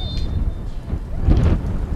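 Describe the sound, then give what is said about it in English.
Gusty wind buffets the microphone at USAC Field during a UCLA college soccer match, a loud low rumble that swells and eases in uneven surges with no talk over it. “Wind clearly picking up here at USAC Field.”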